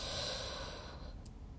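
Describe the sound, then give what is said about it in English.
A person draws in one deep breath, a soft airy rush of air that tapers off over about a second, heard alone without speech. “Pause, breathe in,”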